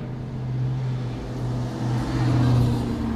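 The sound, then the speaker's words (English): A Hummer driving by makes a steady, low engine drone that holds for the whole stretch and swells slightly near the end. “Some dude just drove by in a Hummer. Hummers are gas guzzlers.”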